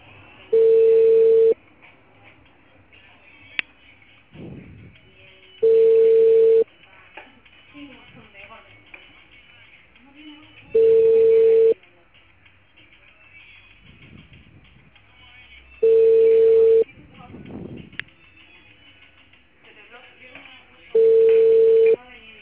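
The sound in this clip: Ringing tone of a dialed telephone call that goes unanswered: five steady, evenly pitched ring bursts about five seconds apart, with quieter rustling and faint talk in the gaps.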